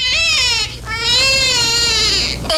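A newborn baby girl cries in a small gray house on an island, a loud, high, wavering wail in sustained breaths broken by short gasping pauses.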